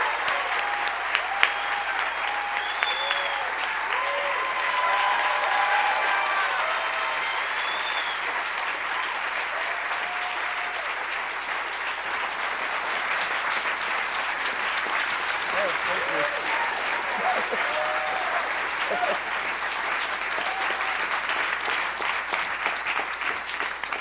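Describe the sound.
Audience applause welcoming a performer onto the stage at a World Cafe live show on a cold night: steady, dense clapping that holds for the whole stretch, with a few whistles rising above it.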